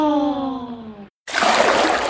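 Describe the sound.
Paint splashing while roses are painted red: a short, dense, wet burst that follows a sung voice and a moment of silence.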